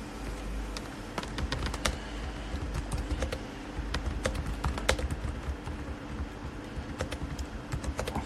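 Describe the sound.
Rapid typing on a computer keyboard: many sharp key clicks in an irregular, continuous rhythm over a low steady hum, with no voices.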